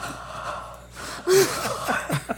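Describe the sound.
A voice imitates heavy breathing, with short gasping, breathy bursts coming in uneven rhythm.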